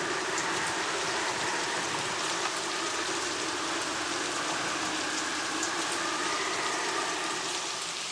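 Rain pouring down over battlefields in late autumn, a constant dense hiss of falling water that stays steady throughout, with no breaks and no voices.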